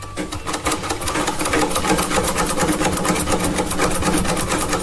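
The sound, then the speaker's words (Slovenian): A Singer sewing machine runs in a fast, even mechanical clatter, its rapid needle strokes steady and loud for the whole stretch with no voices. “Nisi pogosto sedela za šivalnim strojem, bi rekel. Ja, Singer, ja. Bi rekel Singer.”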